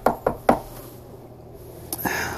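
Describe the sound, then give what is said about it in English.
Knocking at a door comes as three sharp, evenly spaced raps in quick succession, then a pause, followed by a couple of fainter knocks. “Oh, shit. Someone's at the door. Hold on.”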